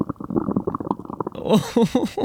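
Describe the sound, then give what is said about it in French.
A stomach rumbles after eating too many biscuits, making a quick series of low, bubbling gurgles that rise into louder warbling churns near the end. “Avez-vous déjà mangé trop de biscuits, les amis? Moi, oui, et mon estomac a commencé à faire de drôles de bruits.”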